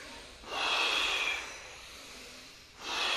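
Forceful candle-blowing breaths from a kriya breathing exercise: a long, hissing rush of air, then a quieter stretch, then a second strong blast that begins just before the end.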